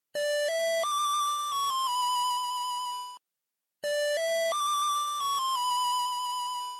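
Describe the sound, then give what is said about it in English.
An 8-bit chiptune melody, the recorder (flute) item tune from the English version of the original NES Legend of Zelda, plays twice with a short silent gap. Each bright square-wave phrase climbs in steps to a high note, then settles slightly lower. “If you played the English language version of the original NES Legend of Zelda, this was the noise you heard when Link used the recorder, an item that was known elsewhere as a flute,”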